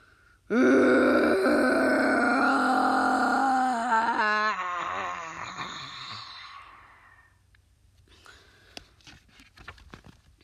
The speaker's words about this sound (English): The Minotaur gave a loud snort. Clouds of smelly breath shot from its nostrils.